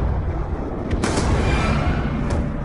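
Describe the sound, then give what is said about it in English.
A gunshot in a video game as a character named Briggs is shot in the leg: one sharp, loud crack over a constant, heavy rumbling background. “Briggs is a good man, Menendez. Don't kill him. Shoot him in the leg.”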